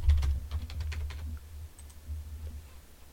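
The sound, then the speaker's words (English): Rapid keystrokes on a computer keyboard, a quick burst of clicking in the first half that thins to a few sparse, fainter taps over a low steady hum. “Type in 1994 Olympics figure skating.”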